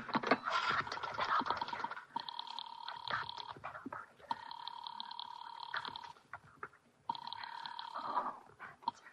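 A telephone rings three times, each a long, bright, buzzing bell tone separated by short pauses, with some clattering noise before the first ring.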